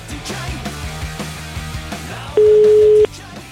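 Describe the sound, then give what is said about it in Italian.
A single steady telephone ring tone sounds on an outgoing call to a trade union office, one clear sustained beep heard loudly over ongoing background music. “abbiamo fatto chiamare un iscritto, un vero iscritto alla CISL, un po' puttaniere, incazzato alle sedi della CISL, con un effetto un po' curioso,”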